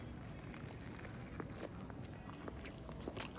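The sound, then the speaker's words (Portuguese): Chewing on a homemade baurú sandwich: many soft, irregular crunching bites and mouth sounds, fairly faint, with no talking. “eu tô comendo um baú que a minha querida amiga ali fez pra mim, né?”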